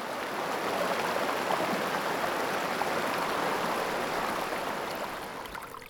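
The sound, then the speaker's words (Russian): A river flowing, heard alone as a steady, dense rushing of water that stays even throughout and eases slightly near the end. “А вот это наверняка слышал каждый из вас. Это река.”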